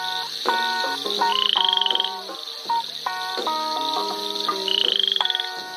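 A male frog croaks in a mosquito-filled spot. Steady, loud, overlapping calls with a nasal, harmonic tone fill the whole stretch, and a higher, rapidly pulsing trill rises above them twice.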